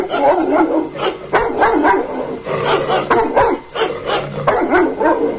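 A dog barks over and over in bursts of sharp, mid-pitched barks mixed with a few higher yips. The barks are loud, with short pauses between the groups.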